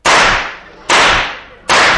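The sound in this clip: Revolver gunshots, three loud sharp cracks less than a second apart, each fading off quickly before the next.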